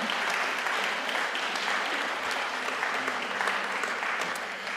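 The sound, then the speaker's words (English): A church audience applauds a member being encouraged, producing dense, continuous clapping at an even level that eases off slightly in the last moment. “to encourage James, we really ought to applaud him”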